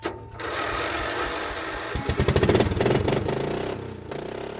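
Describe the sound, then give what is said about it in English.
A racing lawn mower decorated in flames and skulls runs with a steady, raspy buzzing engine note that swells into rapid, throbbing pulses midway, then settles back to an even drone. “He hops on a mower decorated in flames and skulls. I like to tell people they sound like little Harleys.”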